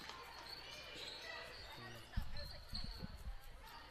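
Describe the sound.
Basketball dribbled on a court during a women's game, a few dull, thudding bounces in the latter half after a quieter stretch, with faint voices in the background.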